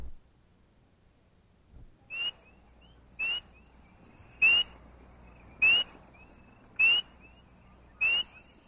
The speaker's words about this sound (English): Frog 4.